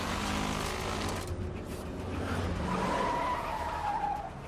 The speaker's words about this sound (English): violently backs his Range Rover up, then tears off down the road